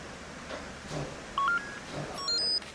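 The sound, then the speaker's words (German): Telephone number being dialed by someone about to make a call: a short run of distinct, loud keypad tones in the second half, with faint background noise before them. “Ich werde Frau Müller anrufen.”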